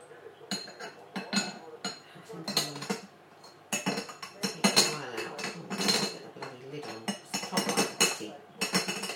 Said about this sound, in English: I've made the tea and now I can't get the lid on. It's fiddly